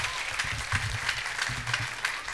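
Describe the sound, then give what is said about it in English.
An audience clapping their hands in praise during a church service: a dense, steady patter of many hands that stays fairly even throughout. “Clap your hands for Jesus and give God the praise right now.”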